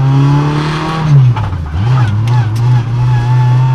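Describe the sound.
A race car engine roars loudly and continuously during a race. Its deep droning tone dips in pitch partway through, then climbs back and holds steady.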